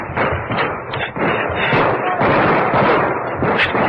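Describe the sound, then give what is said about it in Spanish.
Gunfire aimed at a man running for cover in an adobe house: a loud, dense barrage of shots and thuds that merges into a continuous rough roar with no clear gaps. “Ya me divisaron. Me están disparando.”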